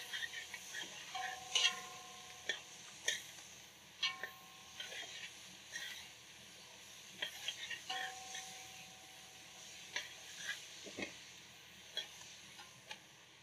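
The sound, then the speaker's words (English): Stirring and sizzling of onions, peppers and carrot cooking in a pan, with many scraping clicks and short knocks repeating over a steady frying hiss. “what I'm gonna do is also let it cook for 2 minutes, just to open up the onions and the peppers, and the carrot.”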